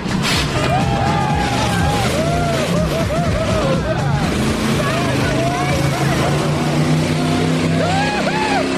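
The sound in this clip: Car engine accelerating hard on a timed run, a loud, continuous roar with engine pitch shifting up and down throughout, while people talk over it.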